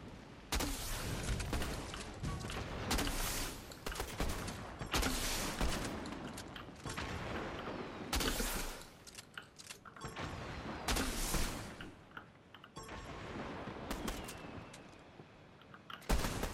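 Rapid gunfire in a ranked first-person shooter match: dense, loud volleys of shots and bursts crowd together with only brief lulls, sustained throughout.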